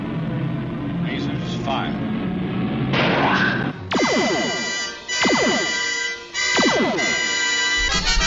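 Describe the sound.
Science-fiction phaser weapons fire from a starship in a space battle. Three loud, ringing electronic zaps each sweep downward in pitch over a dense, rumbling background.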